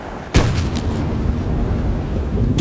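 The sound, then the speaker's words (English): A ship's cannon fires when its lanyard is pulled, giving one sudden heavy blast. The blast is followed by a sustained, roaring rumble that carries on to the end. “Should you care to pull a lanyard with us? Should I, sir? I should indeed. Fire after Mr. Willoughby, then. Wait for the pitch. Wait.”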